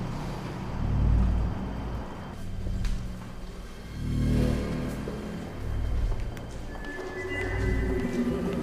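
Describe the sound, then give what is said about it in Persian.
Cars pass along a road, their tyre and engine noise swelling and fading in several broad waves over steady low traffic rumble. “اسماعیل کنار ماشین ایستاده و به ماشین هایی که رد میشن نگاه میکنه.”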